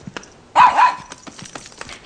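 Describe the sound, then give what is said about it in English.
A dog, a puppy, gives one loud, short bark, standing out from faint clicks and light background noise before and after. “Oh, look, and you brought Rover with you. Come here, puppy.”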